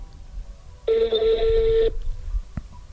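A telephone rings with an incoming call: a single bright, buzzing electronic ring lasts about a second over low background hiss, then stops.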